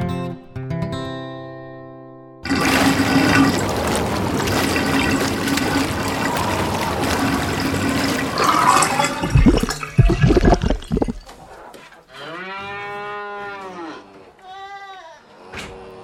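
Toilet flush with swirling water: a loud, sustained rushing gush that roars for several seconds before tapering off. A steady tone comes before it, and wavering tonal sounds follow it.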